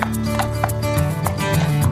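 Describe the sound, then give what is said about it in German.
Hooves clip-clop as horses are led at a walk in East Frisia while someone tries to get them moving soundly again: many steady, evenly spaced hoofbeats over a low background hum. “Jetzt versuchen die gerade, irgendwo ein paar Pferde gangbar zu machen.”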